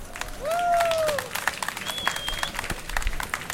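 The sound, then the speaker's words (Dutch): Audience applause on request at an outdoor youth commemoration against racism and fascism, held by a grass field: dense, steady clapping through the whole stretch, with a few high whistle-like tones above it. “Ik zou dan ook eerst willen vragen, voordat ik begin, om een heel groot applaus voor mijn zusje Oeswa Amro.”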